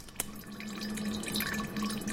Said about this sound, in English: An unlabeled jar slowly fills with 150-proof clear liquid.